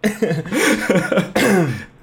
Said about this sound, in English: You just died. That coffee went down the wrong pipe.